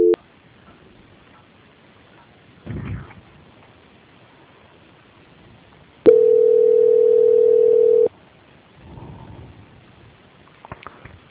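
A steady telephone line tone sounds during a call transfer: one continuous beep of about two seconds, set between stretches of faint line hiss, a couple of soft rustling bursts and a few light clicks.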